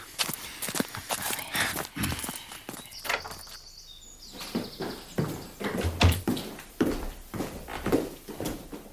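Footsteps of a few people walking into a building, a brisk, irregular run of many dull steps at moderate loudness that continues throughout with no clear pauses.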